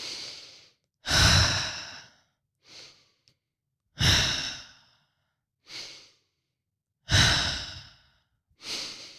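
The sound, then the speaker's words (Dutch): Rapid, rhythmic breathing, drawn in through the nose and pushed out through the mouth. Strong, airy exhalations alternate with softer breaths, separated by short pauses of silence. “Dus een versneld tempo in- en uitademhalen. In door de neus, uit door de mond.”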